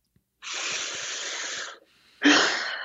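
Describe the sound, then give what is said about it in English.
Deep breath during a calming breathing exercise: a long, airy, wheezy rush of air lasts more than a second, then after a short pause a second, louder gust of breath begins abruptly. “So just take a nice deep breath.”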